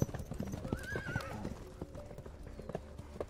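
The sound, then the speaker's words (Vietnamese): Horse hooves clip-clop in a steady, brisk rhythm, with a high whinny rising and falling early on over the hoofbeats. “cương thi bắt đầu di chuyển dưới vó ngựa của Minh Thành”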